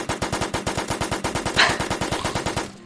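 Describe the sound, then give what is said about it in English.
Assault rifle firing in a video game: a long, sustained burst of rapid automatic shots at an even, machine-like rhythm. The fire is loud and punchy, with no pause, and cuts off abruptly at the end. “The assault rifle is working pretty well though.”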